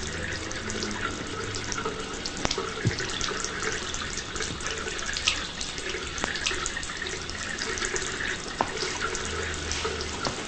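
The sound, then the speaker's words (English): A bathroom tap runs steadily while a man washes his injured hand under the water, a continuous splashing hiss broken by a few faint knocks and drips. “As Davis washes his injured hand”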